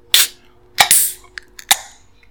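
Craft IPA cans being cracked open, a few sharp metallic pops, each followed by a brief bright fizzing hiss, spaced unevenly with small clicks between them and no talk.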